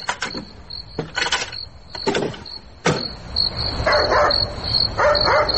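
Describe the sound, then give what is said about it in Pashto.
Knocking on a door at midnight: a few sharp raps arrive in short groups separated by pauses, over a steady high cricket chirp, with softer rustling sounds after them. “دروازه ټکېږي؟ او دروازه ټکېږي.”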